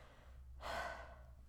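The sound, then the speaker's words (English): A single quick inhale from a person catching their breath after talking too fast, a soft, airy rush lasting under half a second amid otherwise quiet surroundings, with no speech. “Hang on, I need to take a breath.”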